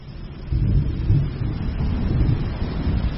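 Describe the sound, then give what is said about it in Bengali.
Rain falling on a forest beside a dirt road: a dense, continuous hiss over a heavy low rumble, steady and fairly loud throughout with no voices. “পূর্বকের বনে বৃষ্টি নেমেছে, সুগন্ধ উঠছে দুধারের বৃষ্টি ভেজা বন থেকে এবং কাঁচা রাস্তা থেকে”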